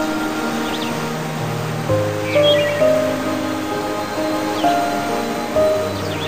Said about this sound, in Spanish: Escucha el caer del agua de la cascada y cómo fluye libremente por el arroyuelo.